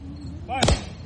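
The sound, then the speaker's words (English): Rifle volley fired at a military memorial ceremony: one sharp, loud blast with a brief decay, just after a short voice. “Ready. Aim. Fire.”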